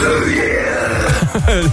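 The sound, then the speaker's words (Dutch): A professional burper lets out deep, croaky burps, a few short guttural bursts coming in quick succession toward the end after a rougher, drawn-out belch. “Ja, hij doet aan professioneel boeren. Boeren is zijn werk.”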